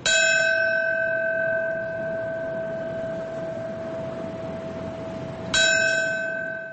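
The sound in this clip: A memorial bell rings at a ceremony in New York marking the September 11 anniversary: two struck tolls several seconds apart, each a bright clang settling into a long, steady, sustained hum.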